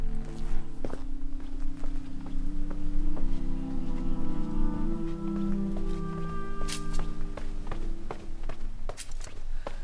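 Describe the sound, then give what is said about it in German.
Footsteps descend low stairs at night in a city lane between small side walls and house fronts, open to left and right, as steady soft taps over a continuous background of sustained tones. “Man hört eben eigentlich auch, dass es niedrige Stufen sind, und man hört auch die kleinen Seitenmäuerchen”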